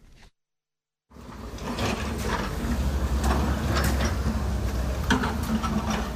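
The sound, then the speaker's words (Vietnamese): Excavators, hoes and shovels clear flood debris from mud-marked roads: a short burst, a brief silence, then a steady loud mechanical rumble with clanking and scraping hits scattered through it. “Từ sáng sớm, trên những con đường còn in dấu dòng nước lũ, tiếng máy xúc, tiếng cuốc, tiếng xẻng lại vang lên.”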